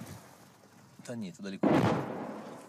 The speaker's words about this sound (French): L'obus s'écrase un peu plus loin.